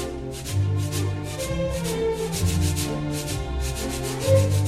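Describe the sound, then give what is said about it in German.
Sandpaper rubbed as a rhythm instrument, many steady, evenly spaced scratchy strokes in a regular pulse, with low sustained tones beneath. “Da würde ich dann sagen, es kann zum Beispiel Sandpapier sein. Hatten wir letztens im Konzert auch. Wird als rhythmisches Instrument eingesetzt, ist aber eigentlich ein Geräusch.”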